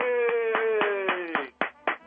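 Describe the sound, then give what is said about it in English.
Rhythmic clapping used as a round-of-applause sound effect: about eight evenly spaced claps beat over a sustained tone that slowly drifts lower in pitch, with the last few claps standing out alone. “There, you just got your round of applause for being Man of the Year.”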